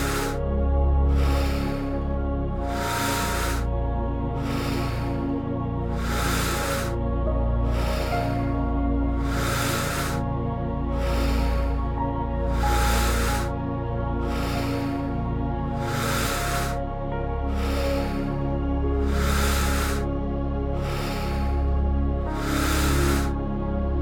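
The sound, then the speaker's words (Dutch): Steady breathing in and out without pause, heard as a regular series of soft breathy bursts at an even rhythm over sustained, calm background music. “Adem zonder pauze in en uit en vind je eigen ritme.”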